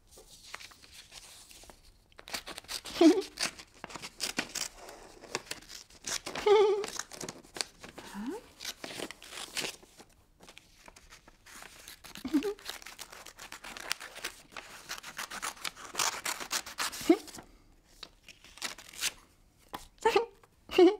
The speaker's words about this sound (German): Das ist eine Schere. Eine Schere? Mhm. Mit der Schere kann man schneiden.